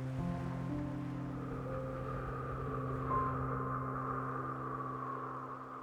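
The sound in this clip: Ocean waves wash up on a sandy beach in a soft, continuous hiss and swell, beneath sustained, low tonal music, with no voices.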